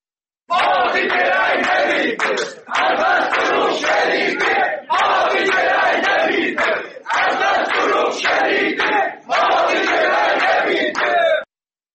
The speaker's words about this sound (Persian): در مورد تبریز صدای تجمع کنندگان رو میشنویم.